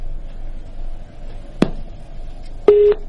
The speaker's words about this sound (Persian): بله متاسفانه خط ما قطع شد.